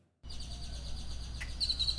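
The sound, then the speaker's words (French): Birds chirp near a primary school. A steady low outdoor hiss begins after a short silence, and a few faint, high chirps rise over it near the end. “Les oiseaux qui chantent aux abords de l'école d'Uvalde ne suffisent pas à faire oublier la tragédie.”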